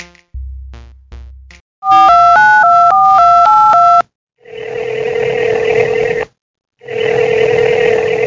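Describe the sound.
Touch-tone telephone dialing: a fast run of paired beeping tones, each key a short steady pitch. It ends with two long, buzzing ring tones separated by a brief gap, after a few soft low thumps at the start.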